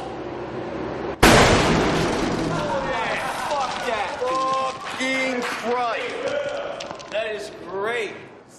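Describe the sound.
One sudden, loud detonation comes from an explosive charge of the type mounted outside embassies to protect gates. The sharp crack fades into a decaying rumble, and excited voices then talk over the tail.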